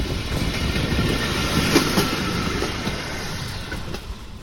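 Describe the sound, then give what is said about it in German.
Red pedal-powered rail trolley rolling along an old railway track beside a cycle path, giving a continuous rumbling clatter of wheels on the rails with no voices. “Nur selten sieht man noch Gleise. Auf einem Abschnitt fahren rote Draisinen, Touristen haben sich eine geliehen, treten in die Pedale”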